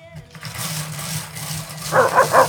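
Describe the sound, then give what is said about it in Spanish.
A small dog barks in a quick run of short, high yaps near the end, rising above a low, steady background rumble. “Ahí está el perrito.”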